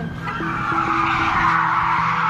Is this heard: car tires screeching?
yes